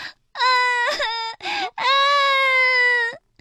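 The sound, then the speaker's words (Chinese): A child cries loudly in a sad outburst: long, high, tonal wails broken by a few short catches, ending with a drawn-out wail that bends upward before it stops. “甜甜也难过的大哭了起来。”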